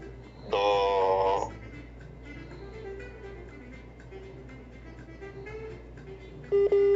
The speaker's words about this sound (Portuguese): Ih, caiu a ligação.